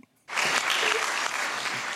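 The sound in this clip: Applause at a JAM gathering bursts in after a brief moment of quiet, jumping straight to a loud, dense clatter of many hands that continues evenly to the end.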